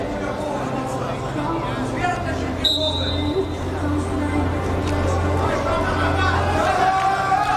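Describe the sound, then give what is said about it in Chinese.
Spectators from Kazakhstan cheer on their player at a sports match, a steady crowd murmur that runs the whole time beneath a voice talking over it. “这是来自哈萨克斯坦的观众在给奥扎耶夫加油打气。”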